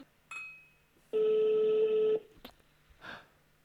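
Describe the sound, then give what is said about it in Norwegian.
A telephone ringback tone on an outgoing call to a café: one steady, buzzing ring lasting about a second, with faint clicks before it and a brief rustle after. “Du er nødt til å ringe en Grand Café og ha litt for høye tanker om deg selv og stille litt for store krav.”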